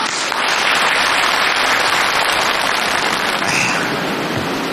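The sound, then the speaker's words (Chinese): Applause from a live audience welcoming a Peking opera guest. The clapping is a thick, loud, rain-like patter that holds steady throughout and thins only slightly near the end. “我们有京剧界的人今天来了，木鱼老师到现场了，大伙儿给鼓掌。”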